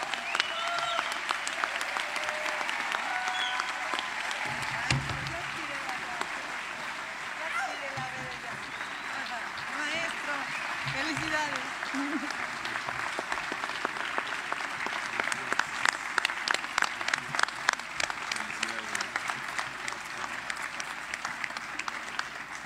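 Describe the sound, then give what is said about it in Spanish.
Audience applause at an international jazz festival in Xalapa for a bass player and composer. Dense, steady clapping runs under a man's speaking voice and grows sharper and more emphatic toward the end. “para quien les pido un fuerte aplauso”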